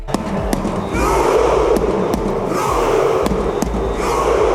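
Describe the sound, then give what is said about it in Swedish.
Norwegian football fans cheer after Norway's 3-2 World Cup win over Senegal in New Jersey. A loud, steady crowd roar runs throughout, and a few sharp bangs or claps cut through it. “Så där lät Norge efter att de blev klara för 16-delsfinal i fotbolls-VM efter att ha besegrat Senegal med 3-2 i New Jersey.”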